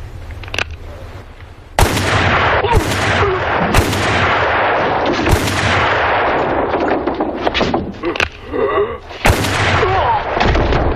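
Gunshots crack out in a film scene, many sharp, loud blasts fired at uneven intervals, each ending in a long, ringing, booming tail.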